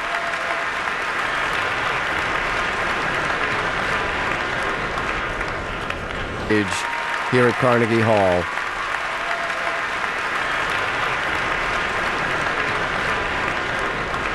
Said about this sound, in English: The audience certainly appreciative and calling her back to center stage here at Carnegie Hall.